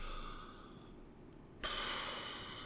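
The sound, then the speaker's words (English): A deep breath taken alone with no talk: a soft, hissing inhale that slowly fades, then a sudden louder, breathy rush of exhale starting about midway and holding steady to the end. “I like to take a deep breath every time I start this.”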